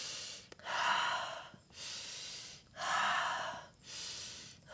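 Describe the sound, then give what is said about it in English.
Slow, deliberate breathing during an upper-body circling exercise: four loud, airy breath sounds alternate between nasal inhales and voiced exhales through the mouth, forming two even cycles. “you breathe in through your nose. And as you round your upper spine, you breathe out through your mouth and make a sound.”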